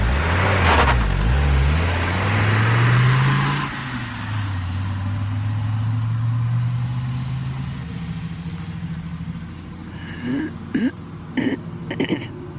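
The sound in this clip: A car engine pulls away, its low drone rising in pitch over the first few seconds, then settling into a steady, fainter hum. A few short throat-clearing bursts come near the end.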